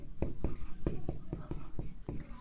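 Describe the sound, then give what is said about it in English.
Pen strokes scratch across paper as notes are handwritten, several quick rhythmic scrapes in a steady, brisk pattern at moderate volume. “My head is two steps ahead of my mouth and I'm writing what's in my head.”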